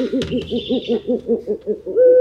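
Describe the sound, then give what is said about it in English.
A Eurasian owl hoots in a rapid, evenly spaced series of many low, rounded calls. The calls are steady and fairly loud, followed at the end by a brief higher steady tone. “Eurasian owls are the top predators that hunt other animals for food.”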